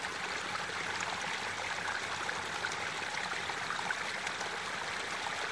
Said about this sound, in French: Vous vous baignez dans cette eau de montagne, purifiante, clarifiante.